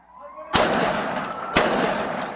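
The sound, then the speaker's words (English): Two loud gunshots fired by a police officer in a parking lot, captured on a body camera. Each is a sharp crack with a ringing tail, and they come about a second apart. “works his way around the parking lot to get a better view of the man, and then shots are fired.”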